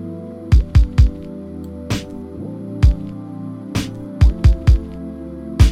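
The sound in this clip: Lo-fi beat with punchy kick and snare hits in an irregular, loose pattern over sustained, held chords of a mellow chord progression, many hits without any voices.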